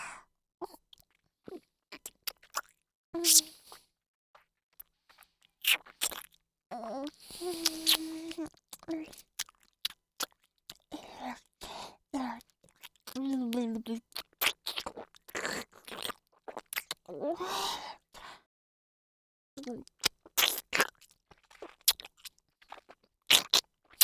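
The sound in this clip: Chewing food during a meal, with many irregular crisp crunches and wet clicks separated by short silences, and brief vocal sounds mixed in.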